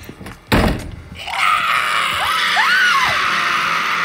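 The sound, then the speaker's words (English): A bathroom door bangs open. Then a high shriek comes from inside in two quick swoops that rise and fall in pitch, over a steady hiss. “Yellow light and a shriek escaped from inside.”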